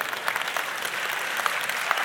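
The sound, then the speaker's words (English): An audience claps during a spoken talk, producing a continuous, moderately quiet wash of applause. A few sharper individual claps poke out of the steady texture. “All the insensitive people are clapping, right?”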